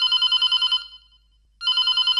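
A telephone rings for an incoming listener call to a radio phone-in: a bright rapid trill, then a silent pause, then the trill starting again, with no voices.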